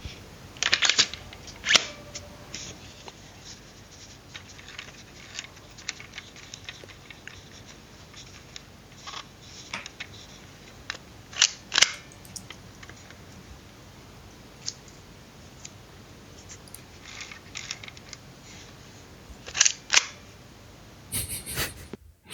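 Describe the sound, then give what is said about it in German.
An Agfa Isola camera clicks and winds: many small dry clicks and scratchy ratcheting, with a few louder bursts of clicking spread through an otherwise quiet stretch. “hier ein kleines Geräuschrätsel für euch und uns Hörer. Das ist eine Agfa Isola.”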